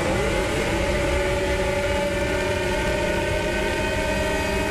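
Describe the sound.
Formula One turbo engines revving on the starting grid at the Singapore Grand Prix, a dense, continuous roar at a steady loudness, with no talk.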